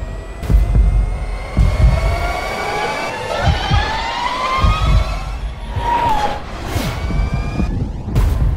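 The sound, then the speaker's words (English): Motorcycle with a bevel gear drive doing a drive-by, its loud whining gear tone layered with harmonics shifting in pitch over a rumbling engine, then dropping away as it passes. “So that's what the bike sounds like, but if you're rolling along just quietly in the city, it's actually pretty quiet. So the way that that sound works is it comes off the bevel gear drive.”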